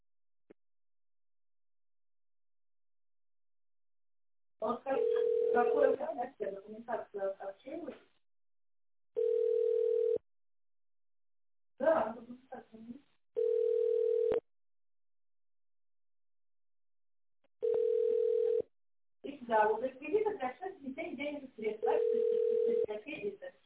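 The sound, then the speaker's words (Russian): Telephone ringback tone while a call connects: steady mid-pitched tone pulses about every four seconds, with a voice talking in the gaps between them. “Звонок уже идет нашим менеджерам. Ожидайте, пожалуйста.”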